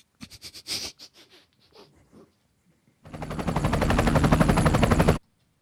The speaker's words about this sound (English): Well, that's a helicopter. No, it's a traffic helicopter.